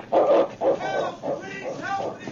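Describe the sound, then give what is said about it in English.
Barking of a husky dog, a few sharp, yelping barks in quick succession that sound thin and muffled. “his barks helped guide the sergeant to the spot”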